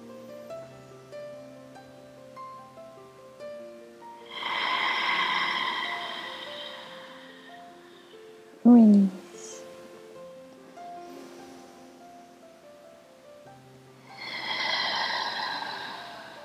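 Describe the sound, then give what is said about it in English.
Deep breathing with two long, loud inhalations separated by a quiet stretch, and a brief sharp nasal snort between them. “And we start with deep, big, inhale. One more time.”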